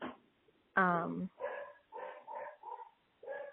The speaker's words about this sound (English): You can hear my dog barking in the background, which is annoying.